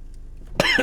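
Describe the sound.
A single abrupt cough from someone whose coffee went down the wrong pipe. The short, loud burst rises sharply out of a quiet, faintly humming background.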